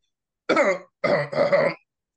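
A person clears their throat in two rough, raspy bursts, the second longer and broken into two pushes, with silence around them.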